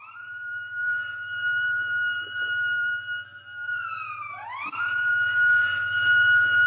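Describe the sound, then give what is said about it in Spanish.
An alarm siren wails in a steady, loud, high tone, then dips sharply and climbs back up to hold its pitch again. A low, continuous hum runs underneath throughout. “Corrió hacia un lado del estante e hizo sonar la sirena de alarma.”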